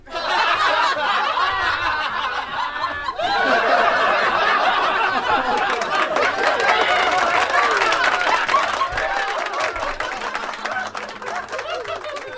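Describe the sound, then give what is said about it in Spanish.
A class of schoolchildren laughs and claps after a joke told in the classroom. Bursts of giggling and chatter lead into a stretch of scattered, busy clapping, then the noise slowly settles. “¿Podéis dejar de aplaudir? ¿Ya? ¿Podéis dejarlo? Que no es tan bueno, ¿eh?”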